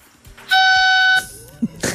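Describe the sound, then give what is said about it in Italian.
A small toy trumpet blown once gives a bright, buzzy, steady blare lasting under a second, followed by brief softer noises. “Mario Giordano ha appena preso una trombetta e l'ha suonata”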